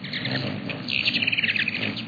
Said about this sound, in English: This tiny Anna's hummingbird is a bird of the West.